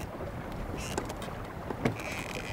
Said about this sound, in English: I'm sailing up the Nile in the most traditional of ways